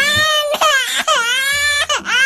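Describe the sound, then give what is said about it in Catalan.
A baby cries at home in the early morning, a loud, high-pitched wail broken into several sustained bursts by short catches of breath. “Tranquil, allò que estàs al llit encara, i en sec sents que comença a plorar un nadó.”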